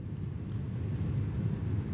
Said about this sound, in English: Also, it's starting to rain pretty hard now, so I'm sorry if the rain sounds get a little bit loud.